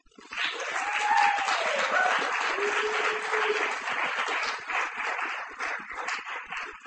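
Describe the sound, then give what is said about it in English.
An audience applauds after a poetry reading with dense, steady clapping that starts abruptly and holds for several seconds before easing slightly. “That is Malcolm Kenyon, ladies and gentlemen. Give him a hand.”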